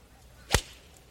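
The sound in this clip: A MacGregor golf iron strikes the ball in one crisp, sharp crack, a brief bright impact that rises abruptly out of quiet and fades within a fraction of a second, with no voices.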